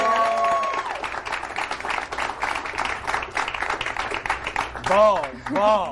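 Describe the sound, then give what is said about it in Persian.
An audience claps to welcome a guest: lively applause runs through the middle, with a man's voice speaking over it at the start and again near the end. “به افتخار طلا گلزار. یه دست بزن.”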